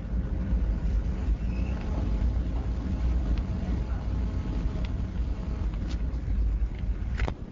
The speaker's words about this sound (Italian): In questo momento il traghetto è partito, stiamo sentendo dei rumori inquietanti, c'è un rombo pazzesco, vi facciamo ascoltare le vibrazioni.